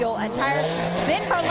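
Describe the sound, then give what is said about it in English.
The Turner BMW race car's engine, a four-tailpipe car racing in the Michelin Pilot Challenge at VIR, gives a loud, harmonic roar with pitch that swings up and down as it revs. Commentators talk over it throughout. “That was the sound of the Turner BMW.”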